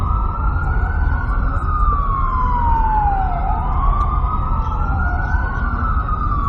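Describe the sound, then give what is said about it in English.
A loud emergency vehicle siren wails on a New York City street, its tone sweeping down and back up in slow repeated cycles over a steady low rumble of traffic. “Let this emergency vehicle pass here while I drink some coffee.”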